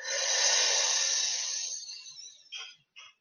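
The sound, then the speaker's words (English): A deep breath is drawn in during a breathing exercise: a steady, airy hiss that slowly fades over about two seconds, then a couple of brief soft breath sounds. “Inhale. Exhale. Last one. Inhale.”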